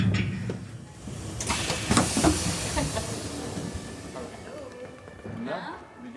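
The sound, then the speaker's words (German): Interior sound of a nearly empty ICE high-speed train: a steady low rumble and airy hiss run throughout, with brief rattles and clatter in the first half. “Es ist etwas merkwürdig, zu diesem Zeitpunkt mit der Bahn zu reisen. Der ICE ist gespenstisch leer.”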